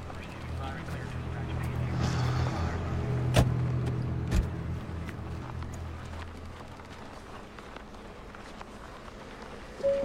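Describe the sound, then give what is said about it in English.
A car pulls in and comes to a stop beneath a lit pit stop sign. Its low engine rumble is faint and steady, broken by two sharp knocks partway through. “The car pulls in, stopping under the pit stop sign, now lit.”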